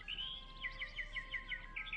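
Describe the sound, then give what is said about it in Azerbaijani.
A bird sings a quick series of many short, high chirping notes in a steady rhythm over faint background noise. “Bir quş oxudu.”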